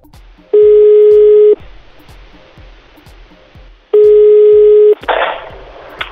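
Telephone line tones while calling again: two long, steady, identical tones about a second each, separated by a pause, over faint regular ticking, with a short burst of rushing noise after the second tone.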